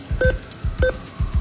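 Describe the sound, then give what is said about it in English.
ATM keypad buttons being pressed during a cash withdrawal: soft repeated clicks in a few quick pairs, with two short electronic beeps among them, faint and without talk. “So we're at an ATM. We're getting the hitting of buttons and numbers. This is getting out cash.”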